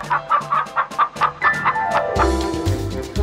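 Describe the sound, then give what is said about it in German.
A hen clucking in a quick, steady series of short, sharp clucks that keeps a regular rhythm, clear and fairly loud, with no voices. “Und plötzlich sah ihn eine Henne.”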